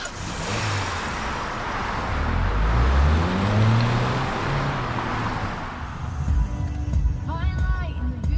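A car engine runs and revs ahead of a road trip, a loud rumbling drone with a rising whine that settles into steadier road noise.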